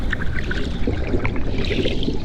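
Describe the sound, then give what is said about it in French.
Open-sea waves off the Comoros in the Indian Ocean at sunset: loud, continuous sloshing and lapping water with small bubbly splashes, steady and without voices. “Je suis au large des Comores dans l'océan Indien. Le soleil disparaît à la surface de l'eau.”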